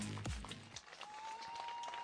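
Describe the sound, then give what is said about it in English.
Crowd clapping at a football game as an injured player is helped off the field, a steady wash of applause and crowd noise with a low thump near the start. “So Jack Layer helped up off the field after his injury, getting some claps from the audience here.”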